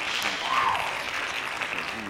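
Clapping from a group runs as a dense, continuous patter at a steady moderate level for the whole stretch, with no clear pauses or separate claps.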